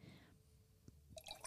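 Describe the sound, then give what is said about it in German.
Rosé wine from a German winery being poured into glasses: a faint, soft trickle with a few light drips, quiet throughout and with no talk over it. “ich habe einen wunderschönen Rosé von Schmitz Kinder, den schenken wir jetzt kurz mal ein.”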